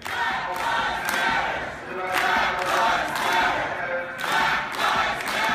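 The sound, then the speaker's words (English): Protesters chant at a city council meeting in Berkeley, California, many voices shouting a short phrase in repeated rhythmic bursts with brief lulls between them. “And here is the sound of some protesters chanting at a city council meeting in Berkeley, California.”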